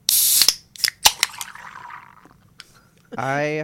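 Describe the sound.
A beverage can cracked open with a sharp hiss and a few clicks, followed by fizzing foam that slowly fades, and a voice briefly at the end.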